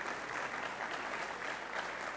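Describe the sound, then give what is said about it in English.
An audience at a religious talk claps in steady, dense applause from many hands, fairly soft and even throughout. “We can clap for that, yeah.”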